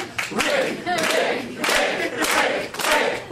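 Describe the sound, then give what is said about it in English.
An audience cheers on a hesitant volunteer during a magic act, with loud bursts of shouting and whooping that swell and drop in a few waves. “Let's cheer Rick on.”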